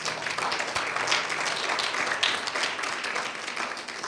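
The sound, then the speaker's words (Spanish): A church audience applauds in praise during a sermon: a short burst of dense, steady clapping at a moderate level. “Dale un aplauso fuerte al Señor.”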